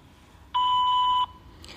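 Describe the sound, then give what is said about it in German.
A voicemail beep marks the start of message recording: one steady, fairly high electronic tone lasting under a second, alone over faint line hiss. “das ist die Mailbox von Gerd Kubicki. Gerne eine Nachricht hinterlassen, dann rufe ich zurück.”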